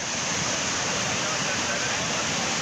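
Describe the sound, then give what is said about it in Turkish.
Floodwater rushes in a steady, loud roar after a downpour turned into a flash flood in Keles, Bursa, sweeping along everything in its path; the dense hiss continues without a break. “Keles ilçesinde sağanak sele dönüştü. Önüne ne geldiyse sürükledi.”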